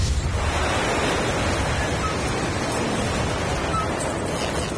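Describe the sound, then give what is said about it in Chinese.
Strong typhoon wind at sea near a lighthouse: a loud, steady roaring rush of noise that holds without a break from start to finish. “太大了， 对，这风太大了。”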